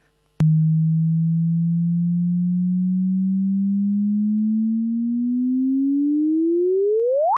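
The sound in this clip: A gravitational wave detector signal played as audio: a single pure tone begins with a click, holds low and glides slowly upward for about seven seconds, then sweeps sharply up in pitch in a final chirp.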